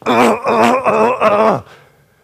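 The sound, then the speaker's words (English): A voice imitates a person groaning: a loud, drawn-out voiced moan that swells in about four pulses, then trails off into quiet. “We groan. We groan at God.”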